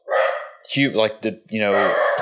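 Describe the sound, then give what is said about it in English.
Two small dachshunds barking, a few short, high, yappy barks in quick bursts, mixed with a person talking. “I got two little wiener dogs”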